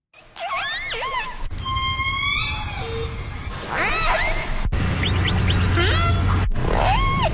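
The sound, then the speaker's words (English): West Coast killer whales call underwater in many varied pulsed and whistled calls, some sweeping up and down in pitch and overlapping, over a constant low rumbling background. “Now that is the sound of some audio of killer whale sounds on the West Coast. You can hear their calls”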